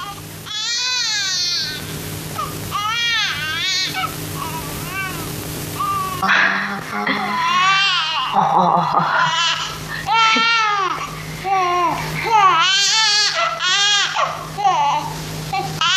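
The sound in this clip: A newborn baby cries in repeated high, wavering wails that rise and fall in pitch, with short breaths between the bursts, loud and continuous.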